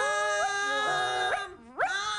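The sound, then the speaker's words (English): A puppy whimpers and howls in sustained, high whining tones that swoop upward in pitch several times, dipping briefly before a final rising wail. “And it wriggled away and tore his coat, and then the dog ran off down the road.”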